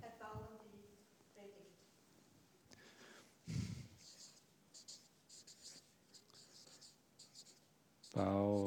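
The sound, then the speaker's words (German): Handwriting on paper or board: a run of short, scratchy pen or chalk strokes, soft and irregular, with a voice and breathing around them and a louder burst near the end. “Ach, jetzt habe ich hier ein S geschrieben.”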